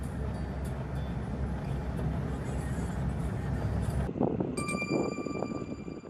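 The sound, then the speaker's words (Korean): Road noise from a car driving to a hillside outside Padum: a steady low rumble with a broad hiss, then an abrupt shift in tone near the end. “다시 차를 타고 파둠 외곽의 산비탈로 이동합니다.”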